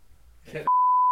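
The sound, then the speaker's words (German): A censor bleep cuts off a brief burst of talk: a steady, pure, high-pitched tone starts abruptly, holds loud and unchanging to the end, and is louder than the voice before it. “Wir müssen schon wieder viel piepen.”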